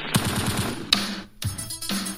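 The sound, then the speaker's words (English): Gunshot sound effects crack out in a few loud, sharp bursts, some made of rapid repeated shots, with no voices. “Boom. Shots fired. Shots fired.”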